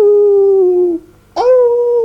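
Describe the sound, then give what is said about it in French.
A voice imitates a little female dog barking with two drawn-out, howling calls. The first is steady, then sinks slightly in pitch and fades. After a short gap, the second starts abruptly and holds loud and level. “À ce moment, la petite chienne aboya. Aouh !”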